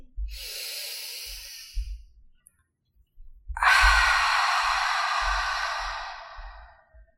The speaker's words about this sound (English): So it'll sound something like this. Exhale completely. Go ahead, breathe in.